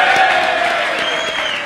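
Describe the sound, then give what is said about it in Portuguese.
Applause from a crowd, a dense, steady clatter of many hands clapping that fills the whole brief moment at even loudness. “Palmas pro RG!”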